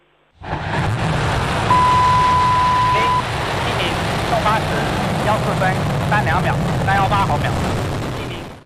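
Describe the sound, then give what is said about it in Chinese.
Deep, loud roar of a Long March 7 carrier rocket at ignition and liftoff. It swells within a fraction of a second and holds steady and rumbling to the end, with faint voices over it. “8时14分，长征7号遥11运载火箭点火起飞。”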